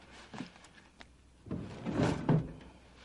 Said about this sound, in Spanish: Saca un cuaderno de un cajón y escribe.